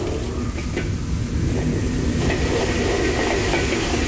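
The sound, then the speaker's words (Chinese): Minced garlic sizzles in hot rapeseed oil in a pan with wild pickled peppers and lantern chilies, giving a loud, continuous, even hiss that holds steady throughout. “辣椒爆香之后加入剁好的大蒜爆香”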